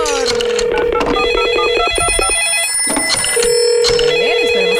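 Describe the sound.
A telephone rings during a radio contest as a winner is being called. The rings come as repeated electronic pulses, loud and rhythmic, mixed with other tones.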